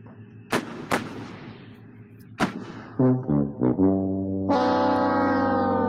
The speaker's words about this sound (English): Load up the cannons. Launch it out to space.